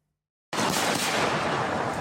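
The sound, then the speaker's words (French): Fireworks explode at a 14 July display that ended in disaster. Loud, dense crackling bursts start abruptly after a moment of silence and continue as a steady roar without pause. “À Cholet hier soir, le feu d'artifice du 14 juillet vire au drame.”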